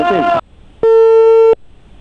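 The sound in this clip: A telephone busy signal follows a hung-up call to an official. A brief voice is followed by one long, steady electronic beep, then silence.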